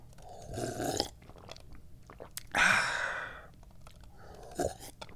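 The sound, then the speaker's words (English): Tea being sipped, a few wet slurping mouth sounds separated by pauses, with a longer breathy exhale in the middle, all fairly soft and with no talk. “So delicious. I do love to drink tea.”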